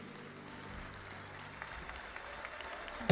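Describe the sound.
Church audience applause welcoming a singer who opens a service with the choir: a steady, even wash of clapping that holds throughout, ending on a sharp, louder burst.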